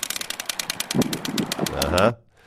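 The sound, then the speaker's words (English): A playing card flaps in the spokes of a bicycle wheel, making a rapid, regular clatter like a ratchet that quickens as the wheel spins faster, then cuts off abruptly. “If you're a kid in the 80s, 70s, 90s, around that era for sure, chances are you took a playing card or a card from your hockey card collection, thinking it was cool to take Wayne Gretzky's rookie card and stick it in the spokes of your bike.”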